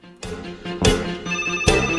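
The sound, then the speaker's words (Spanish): A telephone rings for an incoming call, sounding three bright, buzzy ringtone bursts in a steady repeating pattern, heard alone with no one talking. “Tengo llamada. Vamos a ver.”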